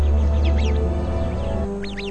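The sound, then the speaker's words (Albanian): Sharp chirping alarm calls from a sentinel bird warning its flock of a viper, a few quick sweeping notes in two short bursts over a steady low background hum. “Zogu roje, jep me njëherë alarmin. Tufa mblidhet së bashku për mbrojtje.”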